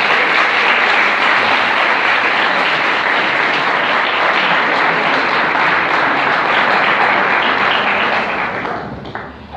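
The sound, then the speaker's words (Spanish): Sustained applause from a conference audience welcoming a priest before his lecture: a dense, steady wash of clapping that holds loud throughout and thins and fades in the final second. “Agradecemos la presencia del padre Olivera Rabassi y lo recibimos con un afectuoso aplauso.”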